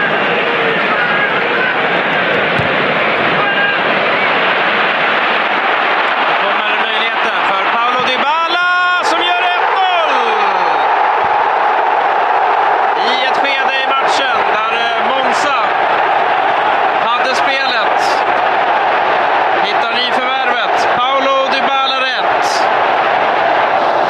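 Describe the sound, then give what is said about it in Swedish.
Stadium crowd filling the stands of Rome's Olympic Stadium during Roma's 3-0 league win over Monza. A constant, dense roar runs throughout, with a voice speaking over it. “Till Italien där Olympiastadions läktare i Rom var fulla och publiken, de fick vad de kom för att se.”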